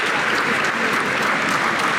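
Steady applause from staff welcoming someone back into Number 10 Downing Street: dense, continuous clapping from many hands, loud and even throughout.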